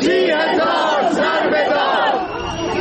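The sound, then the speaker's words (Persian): A crowd cheers, chants and celebrates after a court verdict, thanking the lawyers. The loud, dense mass of voices holds steady throughout and eases off slightly near the end. “صدای هلهله و شادی و قدردانی از وکلا. چهار میدهند و شادی میکنند.”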